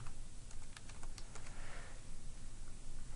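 Faint typing on a computer keyboard while writing app code: a quick, irregular cluster of light key clicks early on, then a steady, soft background hiss.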